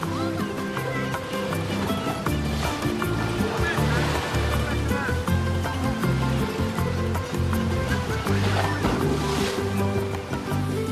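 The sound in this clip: Sea waves at a beach: steady rushing, churning surf that fills the whole clip at an even, fairly loud level, with voices heard over the water.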